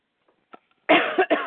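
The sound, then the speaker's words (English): Harsh, loud coughing from a person trying to get over a major bout of coughs: a few hacking bursts in quick succession after a couple of faint, brief sounds. “pardon my coughing, but I'm trying to get over a major, major bout of coughing.”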